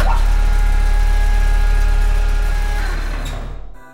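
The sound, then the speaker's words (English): A vehicle's engine hums steadily as it drives forward into a service elevator, a loud, even drone with a thin tonal whine, fading toward the end before cutting off. “Move the vehicle forward into the service elevator.”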